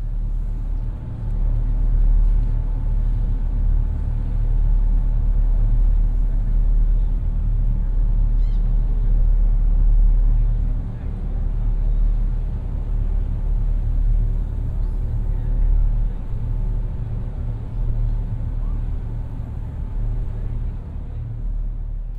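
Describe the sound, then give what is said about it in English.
Engine rumble aboard a ferry crossing to Ocracoke Island in North Carolina's Outer Banks: a steady, loud, low-pitched drone that holds throughout with slight wavering and no talk. “here's a little clip from the ferry ride over to Ocracoke Island.”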